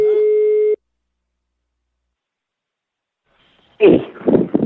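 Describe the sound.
A telephone line tone sounds while a call is placed, one steady, fairly loud buzzing tone that cuts off abruptly. Silence follows, then people begin talking.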